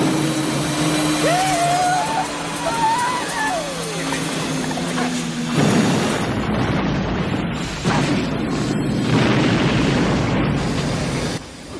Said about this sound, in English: He managed to rescue Nikki, and he blows Overdog up, and you get this final scene here.